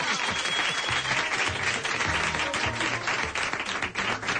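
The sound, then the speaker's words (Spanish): Audience applause for a guest, dense, continuous clapping from a crowd at an even, full loudness from start to finish. “Un aplauso para Pepu Hernández.”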